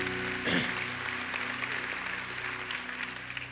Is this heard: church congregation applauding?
yes